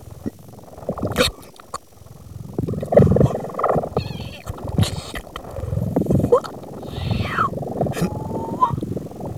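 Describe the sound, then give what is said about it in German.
Muffled animal-like rumbles and snorts likened to an elephant trying to hold back a sneeze, heard at night inside a house's walls; several irregular low bursts and growls of uneven loudness, with a brief high squeak near the end. “hörte sie ein Geräusch, das genauso klang wie ein Elefant, der versuchte, ein Niesen zu unterdrücken.”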